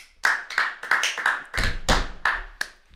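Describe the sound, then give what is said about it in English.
Clapping for a guest being welcomed: a series of sharp, distinct hand claps in a loose, uneven rhythm, loud and with no talk over them. “Please welcome one of the masterminds behind Realbase, real estate software that's changed the game. Give it up for Frank Greeff.”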